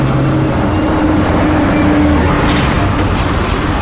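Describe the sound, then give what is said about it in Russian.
Bus pulling up at a stop, with a loud, steady low engine rumble throughout and a few faint, high brake squeals toward the end. “Автобус подъезжает.”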